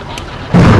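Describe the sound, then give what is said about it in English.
Smoke bombs set off by police officers for cover during a tactical exercise: a steady noisy background suddenly breaks into a loud, muffled burst that carries on as a heavy rushing roar. “The officers set off smoke bombs for cover, then get a command to move in.”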